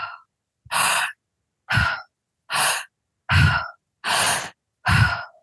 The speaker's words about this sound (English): So the technique is inhalation through the mouth as full as you can, full, full, full, full, full, full, 100%. until you can't go anymore, and then you let it out.